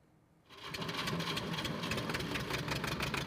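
A diesel generator powering a grain-sieving mill starts up after a quiet moment and settles into a loud, steady rumbling drone with a fast chugging pulse that continues without a break.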